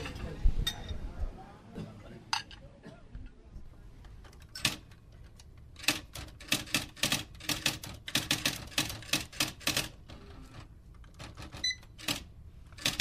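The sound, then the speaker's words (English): Sharp, irregular clicks and taps come as someone writes a birthday card, arriving in quick clustered bursts with short pauses between them, fairly quiet overall. “I'm writing a birthday card to my nephew.”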